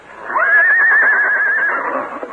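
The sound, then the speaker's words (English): A horse at a camp lets out a loud whinny: one long, high, wavering neigh that climbs quickly, holds steady with a tremble, then fades out, heard alone. “Suddenly, he was awakened by a whinny from his horse, Scout.”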